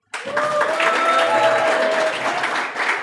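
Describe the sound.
Applause from a live audience in Nairobi at the launch of a new show. Dense, steady clapping starts abruptly and holds at an even, loud level for about three seconds.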